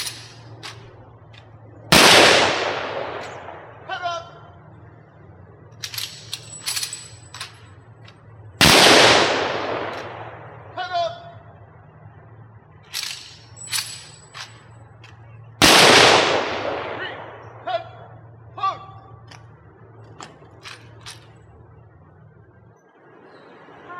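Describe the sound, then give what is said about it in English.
Three loud rifle volleys from a firing party giving final honors at a military committal, each a sharp crack with a long ringing decay, spaced evenly several seconds apart, with faint scattered sounds between them. “we'll all come to attention for final honors. So there'll be three volleys from the firing party, and then there'll be the performance of taps by a solo bugler.”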